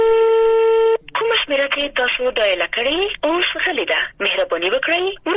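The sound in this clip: A steady electronic telephone tone lasts about a second on a failed mobile call over a poor network in Ghazni, then a voice speaks continuously to the end.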